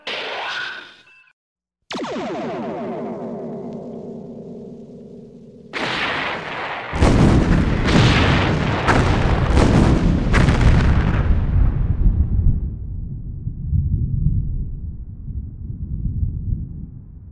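Starship cannons firing in an audio-drama space battle: a long buzzing tonal sweep, then a rapid string of heavy, booming blasts that gives way to a sustained low rumble.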